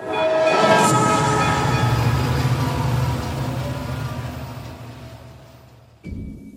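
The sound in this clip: A train sound effect: a loud, rushing rumble that starts strong and gradually fades, with a sudden cut near the end.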